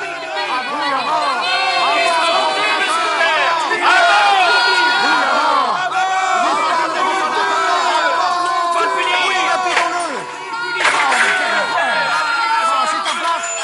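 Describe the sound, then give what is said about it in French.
An angry crowd roars, many raised voices shouting and jeering over one another in a dense, loud, continuous clamour. The noise briefly dips near the end, then surges again. “La foule écoute avec attention. Elle entend l'histoire de Paul. Mais lorsqu'il parle de sa mission auprès des païens, la haine se ravive.”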